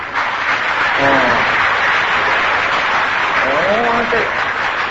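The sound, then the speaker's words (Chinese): Audience applause roars as a dense, steady wash of clapping for the whole stretch, loud and unbroken, with a voice speaking over it. “这鼓掌这么大声”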